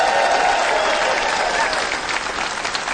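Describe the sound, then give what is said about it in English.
Studio audience applause at a country music show: dense, even clapping from a large crowd that stays loud and steady throughout, with no voices standing out. “But first of all, how about a nice big hand back here? Say howdy to the Wild Bunch, our studio audience.”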